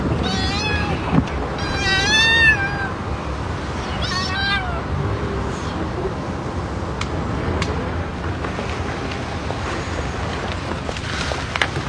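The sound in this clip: A kitten meows a few times, with thin, high-pitched cries clustered in the first half, followed by a stretch of quiet background noise.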